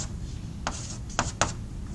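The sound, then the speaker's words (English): Handwriting strokes, a few short scratchy marks standing out over a faint steady low hum, with quiet gaps between them. “Let's finish writing this.”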